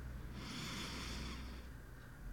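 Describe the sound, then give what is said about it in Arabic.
A slow, deep inhalation during an abdominal breathing exercise, one steady airy hiss of drawn-in breath lasting just over a second before it fades into quiet breathing. “زفير. مرة أخرى، شهيق، زفير. عظيم، هذا هو التنفس البطني.”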